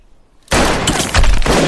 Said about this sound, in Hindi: डाकू लगातार गोलियां चला रहे हैं, जय भी लगातार गोलियां चला रहा है।